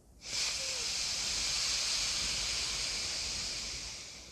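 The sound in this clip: A long, steady airy hiss of breath drawn in through the left nostril during alternate nostril breathing, starting abruptly and holding at an even, fairly soft level for about four seconds before easing slightly at the end.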